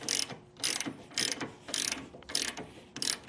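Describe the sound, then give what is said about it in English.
Ratcheting clicks as a nut is tightened over an O-ring and washer onto a shaft that holds a centerpiece: six short bursts of rapid clicking in a steady back-and-forth rhythm, moderately loud, with no talk. “Okay, now there's an O-ring, washer, and nut to go on this shaft. And that's what's actually going to hold this centerpiece in place. We'll tighten that up.”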